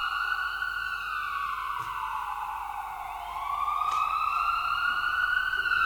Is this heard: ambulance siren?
yes